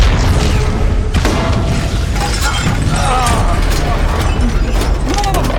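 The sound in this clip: An explosion goes off after a detonation order, a dense, continuous rumbling boom mixed with shattering debris and mechanical clatter, while voices shout over it throughout.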